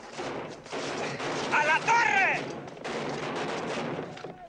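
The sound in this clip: Gunfire in a battle on rooftops and battlements between soldiers and fighters: dense, overlapping shots and rumble that sound continuously and loudly throughout.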